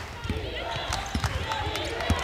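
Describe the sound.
A basketball dribbled on the court during a college game, several dull bouncing thumps under a commentator's steady voice and a busy crowd murmur.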